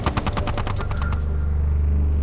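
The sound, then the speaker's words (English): Rapid bursts of chain gun fire from a military vehicle under attack, a fast even string of loud sharp shots for about a second, then stopping abruptly as a heavy low engine rumble carries on alone. “Give me the chain gun! Sir! Now! Fire back! Fire back!”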